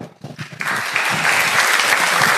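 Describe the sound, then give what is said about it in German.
Applause for Capuchin friars and their helpers at a festival, bursting in after a brief quieter moment and then holding as a loud, dense, steady patter of many hands to the end. “Applaus für unsere Kapuziner und ihre Helferlein.”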